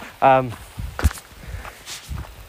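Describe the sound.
A few soft footsteps of someone walking outdoors toward home after passing through woodland, low muffled thuds scattered among talk.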